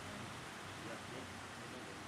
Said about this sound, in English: Do you guys want to go out in that rain, or you just want to stay here for a while? Because look at that out there. My goodness, it's going kind of crazy out there.